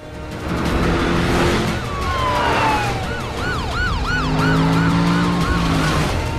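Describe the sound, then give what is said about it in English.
Police car sirens during a pursuit through suburban streets: a long falling wail gives way to a rapid rising-and-falling yelp over a steady engine roar, loud throughout, with no talk. “guides the posse of police cars into more suburban streets, keeping a wary eye on his mirror all the while.”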